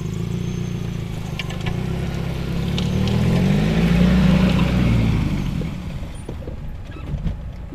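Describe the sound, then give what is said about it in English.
A car drives past rows of Sauvignon Blanc vines in a Marlborough vineyard. Its engine gives a continuous low rumbling drone that swells slightly midway and eases toward the end, with no talk. “We are driving past lots of your vines now.”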